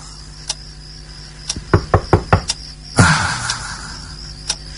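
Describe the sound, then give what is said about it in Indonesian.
Knocking on a bedroom door comes as a quick, evenly spaced run of several sharp knocks, followed by a louder, duller thump. “ketika baru saja akan terlelap, tiba-tiba aku merasa dia mengetuk pintu kamar.”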